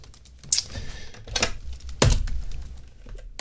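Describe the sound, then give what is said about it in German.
Typing on a computer keyboard in short, irregular bursts, a few sharp clacks rising out of an otherwise quiet background. “Ja, toll, während ich tippe.”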